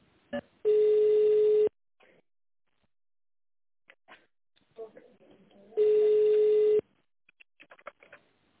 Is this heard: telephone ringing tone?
yes

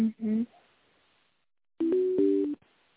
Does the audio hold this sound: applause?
no

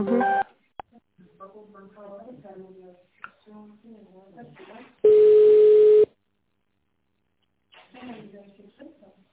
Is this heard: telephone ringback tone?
yes

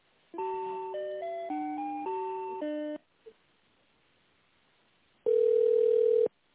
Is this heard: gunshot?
no

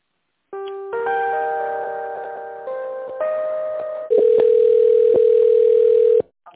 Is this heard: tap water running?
no

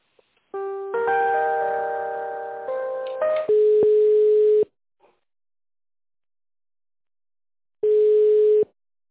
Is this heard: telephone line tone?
yes

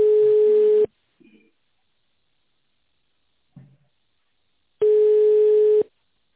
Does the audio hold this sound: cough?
no

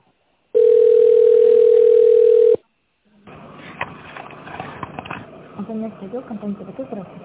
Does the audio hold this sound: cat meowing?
no

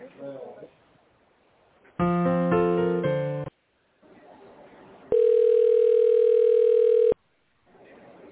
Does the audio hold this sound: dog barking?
no

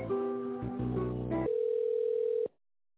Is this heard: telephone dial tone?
yes

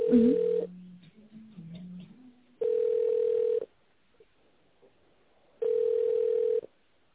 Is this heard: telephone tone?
yes

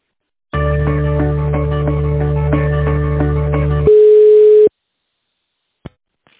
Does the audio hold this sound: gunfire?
no

